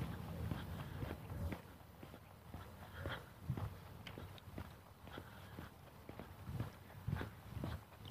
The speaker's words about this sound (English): I can walk on this guy's lawn,